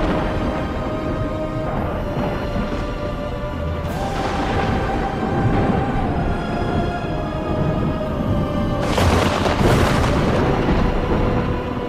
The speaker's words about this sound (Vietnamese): Một tia sét cuối cùng từ trên trời giáng xuống.